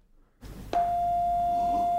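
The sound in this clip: A single sustained note is played on an instrument during a jam: a clean, steady, mid-pitched tone that starts with a light attack and holds unchanged to the end, with no voices over it.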